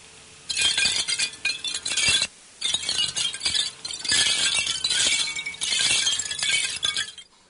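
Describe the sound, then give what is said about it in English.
ShopVac-branded chimes tinkling: bright, high clinks and glassy rings ring out in dense bursts, with a few short gaps between clusters, alone with no voices. “Who's that tinkling is the famous, well, it's not so famous, ShopVac chimes.”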